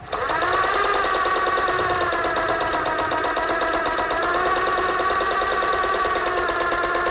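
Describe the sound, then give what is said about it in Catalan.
A domestic sewing machine, a Vertem or Singer, runs steadily with a loud, continuous mechanical whir and a fast, regular stitching rhythm throughout, without talk. “no sé si era una Vertem, una Singer, no, em sembla que tenia una Vertem, ma mare. Una màquina de cosir, que tenia ma mare”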